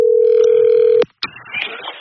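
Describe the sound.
A telephone ring tone sounds as a call is placed during a prize draw: one steady electronic tone lasts about a second, then a click cuts it off and a short burst of line noise follows.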